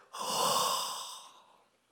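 A human breath exhaled as one forceful, airy burst imitates the sense of a word for spirit. The steady breathy rush holds for about a second, then tails off softly, with no talk over it.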